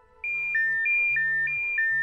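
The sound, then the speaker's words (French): An alarm clock rings with a bright two-note electronic chime that repeats several times at an even pace over a faint low tone. “Je programme mon réveil.”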